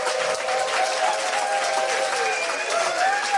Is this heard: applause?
yes